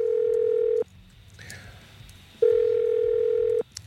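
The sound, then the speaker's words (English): A telephone dials a call during a phone-in game: two long, steady, mid-pitched tones separated by a quieter gap, with faint background sound between them. “Let's dial”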